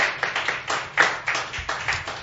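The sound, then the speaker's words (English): An audience claps at a live jazz show at Katarina's in Chicago: steady, rhythmic clapping with evenly spaced sharp hits, moderately loud, with no talk. “Crowd's going crazy. They're going nuts.”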